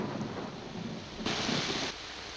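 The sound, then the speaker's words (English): Heavy rain pours down in a dense, steady roaring hiss that swells louder for a moment partway through before settling back to an even downpour. “A heavy rain begins to fall.”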